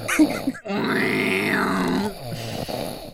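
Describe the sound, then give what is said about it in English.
Loud snoring: one long, groaning, rasping snore whose pitch rises and then falls, preceded by a short grunt and followed by a fainter rumbling breath. “he's snoring. Loud.”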